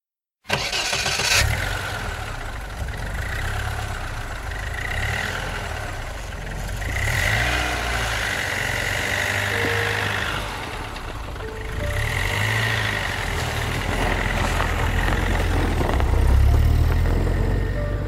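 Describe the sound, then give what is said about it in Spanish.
A pickup truck engine cranks and catches with a sudden loud burst, then settles into a steady, low, rumbling idle with a few gentle swells in level. It runs on alone for about eighteen seconds with no voices. “su padre había puesto en marcha el motor de la camioneta”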